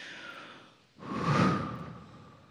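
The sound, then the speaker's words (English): A slow, deep breath, heard as one soft, airy rush that swells to a peak and then gradually fades, with no talking. “Take a deep breath.”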